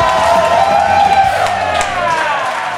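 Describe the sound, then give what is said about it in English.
A comedy club audience at Stand Up NY cheers and claps to welcome a comedian, loud whoops riding over scattered applause that eases off toward the end. “Guys, put your hands together for the very funny Turner Sparks.”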